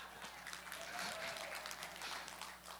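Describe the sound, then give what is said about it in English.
A church audience claps in dense, steady applause at low level, filling the whole stretch and easing slightly near the end. “Y'all clapped when I said we're going to beat Decatur in something.”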